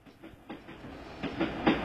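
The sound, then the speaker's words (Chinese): A little-train sound effect opening a short jingle gives a rhythmic chugging clickety-clack with a hiss. The beats grow louder and quicker over under two seconds, with no voices. “小火车的旋律要来喽”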